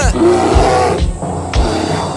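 A bear roars in loud, rough, low bursts as it chases a dwarf out of a cave, the growling swelling and dipping in a few repeated surges.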